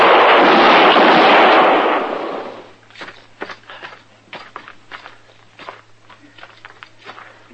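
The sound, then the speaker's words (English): Gunfire from a western-drama shootout: a loud, booming blast rings out and slowly fades, then gives way to a run of quieter, irregular clicks and scuffs. “Troy didn't even shoot, Mr. Dillon. No, but he got hit. Let's get him up to docks. He's still alive. Lee Poland sure ain't. You hit him both times.”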